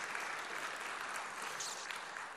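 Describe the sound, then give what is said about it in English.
Steady audience applause for elderly attendees at a talk, a dense, even wash of many hands clapping that holds at constant loudness for the whole stretch, easing only slightly at the very end, with no talk over it. “Can we give you a huge round of applause?”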